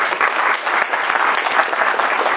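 A class claps for a student in a short burst of dense, steady applause that stays fairly loud from start to finish.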